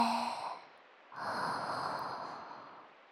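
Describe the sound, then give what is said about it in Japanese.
A deep breath in: a short breath fades out, then after a brief pause comes a long, steady, airy inhale of about two seconds. “ちょっと深呼吸しよっか。吸って”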